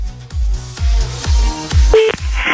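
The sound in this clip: Telephone dialing to call a listener back on a radio show. A run of regular low clicks ticks along, and a short electronic tone comes near the end.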